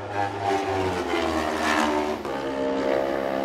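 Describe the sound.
A racing motorcycle engine during the Super Twin TT Race 2, a loud, steady droning roar with a whining harmonic tone that swells slightly toward the middle and holds on to the end.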